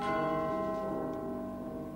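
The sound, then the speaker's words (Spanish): A bell-like ring stands in for a doorbell in a stage comedy, sounding as one steady, loud tone with rich harmonics that holds through the whole clip with no talk. “¡Timbre! ¿Quién es?”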